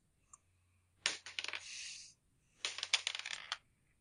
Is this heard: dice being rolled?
yes